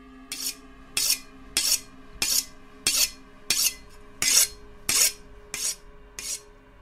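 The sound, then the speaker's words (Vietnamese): A knife being sharpened: ten evenly spaced, bright rasping strokes of the blade scrape in a steady rhythm, each stroke short and crisp with brief gaps between. “Hắn bắt đầu mài con dao cho thật sắc.”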